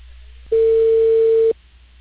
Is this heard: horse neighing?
no

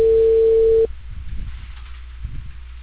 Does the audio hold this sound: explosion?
no

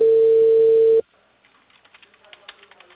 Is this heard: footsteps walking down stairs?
no

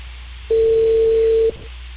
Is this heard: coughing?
no

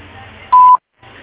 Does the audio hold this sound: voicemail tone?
yes

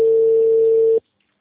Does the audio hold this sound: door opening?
no

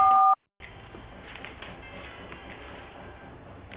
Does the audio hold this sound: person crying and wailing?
no

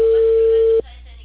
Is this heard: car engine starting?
no

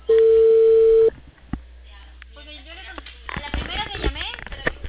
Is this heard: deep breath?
no

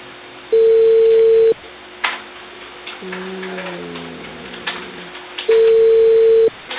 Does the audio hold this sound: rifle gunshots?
no

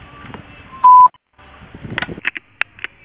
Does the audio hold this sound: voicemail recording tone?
yes

